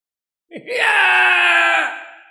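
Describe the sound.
A creature shrieks in fear, a deep-red tree being caught and trapped by moving trees. One long, loud harmonic scream opens with a brief upward-sliding cry, then holds steady and slowly tapers off.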